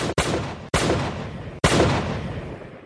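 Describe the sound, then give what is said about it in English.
Gunshots in an audio drama: three sharp, loud reports, each followed by a long, booming decay. No voices are heard. “turned and snapped off four quick shots”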